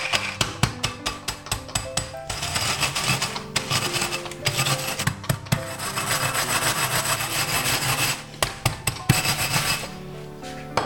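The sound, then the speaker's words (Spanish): Biscuits crushed inside a bag for a dessert base give off many sharp crunching cracks, then a dense, loud, continuous grinding crackle with brief pauses and no voices. “Reservo 6 galletas y el resto las meto en una bolsa y las trituro.”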